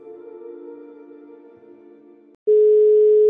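A telephone dial tone while placing a call: a steady, layered hum-like tone holds for a couple of seconds, then a brief silence, then a loud, pure continuous tone runs to the end.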